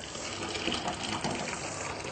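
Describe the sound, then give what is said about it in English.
Water gushes and pours as cooked organic garden potatoes are drained, a steady continuous rushing stream heard on its own for the whole stretch. “Next, we're going to just drain our potatoes, which are cooked. Our organic potatoes from the garden.”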